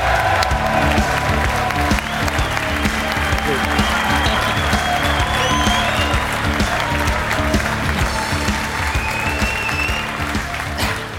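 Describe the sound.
Loud, sustained applause from a live audience welcoming a guest on stage in Dublin, dense clapping that holds steady for the whole stretch and eases slightly at the very end.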